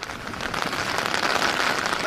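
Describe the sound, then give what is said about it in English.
Steady rain falling outdoors, a dense, continuous hiss of drops striking surfaces with no breaks or pauses throughout. “Well, you seem to be fighting the rain there.”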